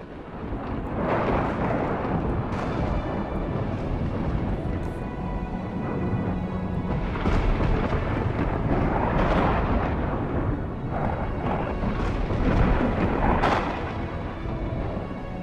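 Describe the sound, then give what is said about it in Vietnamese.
Deafening thunder rolls across the sky as a dense, continuous roar that stays loud and even throughout, with no clear pauses between separate claps. “ở trên thiên không dường như xuất hiện những tia sấm sét đình tai nhức óc.”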